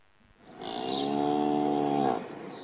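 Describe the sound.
A buffalo lows in a farm cattle shed housing four buffalo, giving one long, steady, deep call that swells in and holds for well over a second before cutting off, alone over faint background.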